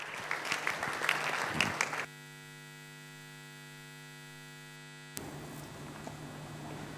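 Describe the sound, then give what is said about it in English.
Audience applause welcomes a guest speaker at a morning church gathering: a dense burst of clapping cuts off into a steady electrical mains hum with harmonics, then broad noise returns over the hum. “so just let's put our hands together and welcome him this morning.”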